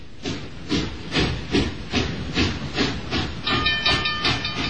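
Steam train at a station, chuffing in a steady, rhythmic series of loud hissing exhaust beats at about two per second, continuous throughout, with no voices.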